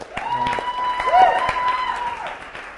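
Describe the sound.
Applause at a church service for the worship team after a song, a modest spread of claps under a speaker's voice.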